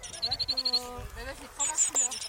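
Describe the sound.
European greenfinch calling: a quick run of thin, high repeated notes, then a lower buzzy passage rich in harmonics, and a few more high whistles, fairly loud over a faint background.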